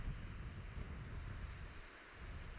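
Wind and surf on a beach, a continuous low rushing roar with a broad steady hiss on top, quiet and even throughout with no distinct wave breaks standing out.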